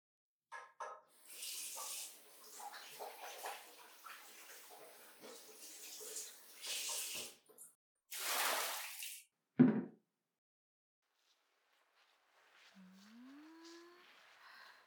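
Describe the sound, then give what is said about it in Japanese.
Water poured over someone's back during a bath, in a long stretch of splashing pours followed by a shorter gush, a sharp knock, then a quiet gap and a brief faint squeak. “ほーら、いいから座って。君の背中流してあげる。”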